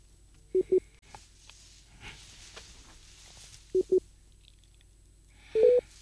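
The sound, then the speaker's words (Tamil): Call-waiting tone on a telephone line during a call: short, mid-pitched electronic beeps in two pairs spaced a few seconds apart, followed by a slightly longer, two-toned beep near the end, over a quiet line hiss. “உங்களது தொலைபேசியில் வேறு அழைப்பு வருகின்ற நினைக்கின்றேன்.”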